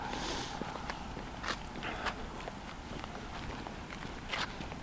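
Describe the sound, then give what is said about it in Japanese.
Footsteps on a sloping path leading up from a small village shrine hall: a few faint, irregular steps over a steady, soft outdoor hiss. “今からちょっと歩いていってます”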